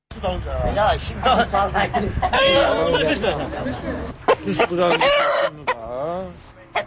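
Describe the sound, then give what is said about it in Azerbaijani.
Roosters cluck and crow at a cockfight staged on a Novruz holiday evening in Maştağa, a village near Baku, Azerbaijan, amid crowd chatter and a voice talking over the birds. “Martın 20-sində bayram axşamı, Maştağı qəsəbəsində də xoruz döyüşdürülməsi səhnəsi qurulmuşdu.”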